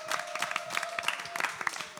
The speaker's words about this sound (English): she is punk rock royalty, and we're so happy to have her. Her band's going to play after this as well. Give it up for Violet Henson, everyone.